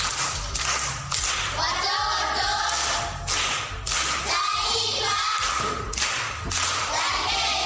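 Children clapping for a classmate in a Bundai primary school classroom, a dense, steady patter of many small hands that stays loud throughout, with a few heavier thumps mixed in.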